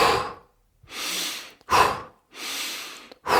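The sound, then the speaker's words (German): Hyperventilation breathing, in through the nose and out through the mouth, demonstrated in a slow alternating rhythm: breathy airy exhales and sharper sniffing inhales, about five strong breaths, with no talk over them. “wir machen Hyperventilation, bei dem wir, ich kann es auch mal vormachen, durch die Nase einatmen, also und dann durch den Mund aus.”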